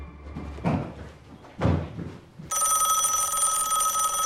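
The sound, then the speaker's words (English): A telephone bell rings loud and continuous with a bright, steady metallic tone, following two dull thumps a second apart. “Will comes to answer the phone.”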